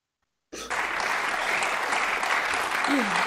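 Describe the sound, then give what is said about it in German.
Audience applause bursts in abruptly after a moment of silence and holds as a loud, even roar of many clapping hands, with a short voice briefly audible near the end. “Alle klatschen.”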